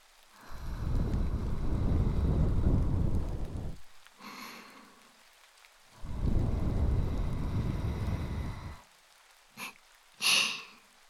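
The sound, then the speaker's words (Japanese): Breath is blown into the ear during an ear cleaning with cotton swabs. Two long, steady, rushing blows of about three seconds each are separated by a pause, followed by a few faint, brief rustles. “息吹きかけるね。ちょっとくすぐったいかもだけど我慢して。”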